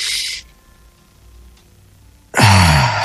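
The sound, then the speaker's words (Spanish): People breathing deeply during a guided relaxation exercise: a loud, breathy rush at the start, a quiet gap, then a longer, forceful breath with a low voiced sighing tone at the end. “Vamos a respirar profundo todos, por favor. Y vamos a empezar a respirar usando el pecho, el estómago y la espalda.”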